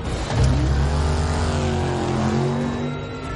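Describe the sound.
The engine of a Dodge car speeding along a highway with police in pursuit surges up sharply and roars loud, holding a strong, steady drone with no talk over it.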